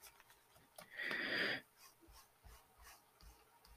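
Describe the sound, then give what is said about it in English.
Erasing a drawn line: one rough, hissy rubbing stroke lasting over half a second, followed by a few faint scratchy touches. “Okay, so I'm just gonna erase this line.”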